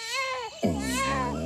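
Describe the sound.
A baby cries while held in a man's arms, a loud wavering wail that breaks briefly near the middle and then resumes strongly, with no other sounds.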